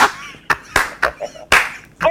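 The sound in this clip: Classroom clapping, a few sharp, loud hand claps in an uneven rhythm separated by short gaps, with brief voices between them.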